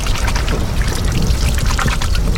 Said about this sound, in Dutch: En dan mag ik nu, geloof ik, eindelijk mijn handen wassen. Nu gaan we eindelijk de handen wassen.